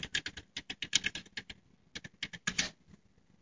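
Fingers type on a computer keyboard to log in, quick bursts of many crisp keystrokes broken by a short pause, then another run that tapers off.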